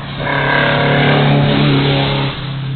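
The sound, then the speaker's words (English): An Alfa Romeo GTV's engine drones steadily as the car rounds a downhill, off-camber corner on a road hillclimb course. The engine holds a fairly even pitch, then drops slightly in loudness near the end. “As a little Alpha GTV comes around the corner.”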